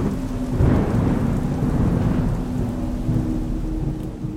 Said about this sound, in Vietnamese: Một đêm mưa gió cứ thế trôi qua.